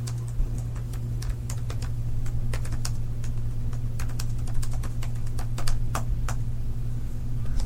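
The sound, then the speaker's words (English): Fast typing on a computer keyboard: many sharp, irregular key clicks in quick bursts over a steady low hum, with no talk. “My typing speed has dropped, fucking plummeted. I just typed 90 words a minute.”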